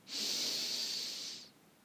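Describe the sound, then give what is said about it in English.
A single deep breath in during a guided breathing exercise: a soft, steady, airy hiss of about a second and a half, heard alone with no talk. “And a deep breath in and out. And in”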